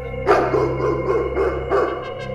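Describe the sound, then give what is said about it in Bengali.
A large grey greyhound barks outside at night in answer to calling jackals, a few deep, forceful barks at irregular intervals over a steady low droning backdrop. “বাইরে শেয়াল ডাকছে এই শিয়ালের ডাকের প্রত্যুত্তরে যেন গর্জিয়ে উঠল হাউন্ডের কণ্ঠস্বর”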